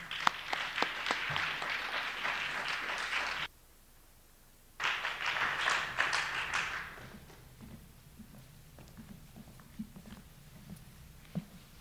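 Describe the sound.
An audience applauding to welcome speakers at a writers' talk event. Clapping fills two stretches separated by a brief silence, then drops to a quiet room with a few scattered taps.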